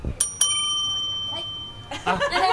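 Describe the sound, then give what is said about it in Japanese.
A call bell at a takeout counter is struck twice in quick succession, giving two bright, clear rings that hang and slowly fade, followed by other brief noises. “ベルで呼んでください。”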